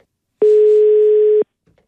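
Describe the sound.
Telephone ringback tone heard while placing a call: a single steady, mid-pitched electronic tone lasting about one second, clean and alone, with no voices.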